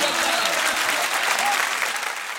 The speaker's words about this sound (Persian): جانم جانم دست بزن.